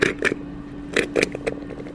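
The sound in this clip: Gas bubbling out of crude oil as it runs from a valve into a plastic bottle, a few faint, irregular gurgling plops with quiet pauses between.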